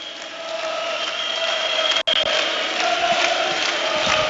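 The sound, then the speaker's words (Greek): AEK basketball fans fill the arena in Badalona at a cup final against Rytas Vilnius, making a continuous dense roar that breaks off for a split second midway. “Κάνε μία παύση να ακούσουμε τον κόσμο.”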